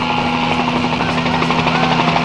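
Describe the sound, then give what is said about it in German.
Helicopter arriving to land, a loud, steady rotor roar with a rapid, even chop of blades and a sustained whining hum, with no voices. “Die fliegenden Boten von Kalum Kalum kommen, um die Opfer zu holen. Da sind sie. Sie haben uns gesehen. Sie landen.”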